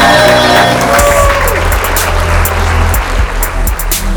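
Audience applause and cheering rise as a dense, continuous wash of clapping and crowd noise, loud and sustained throughout.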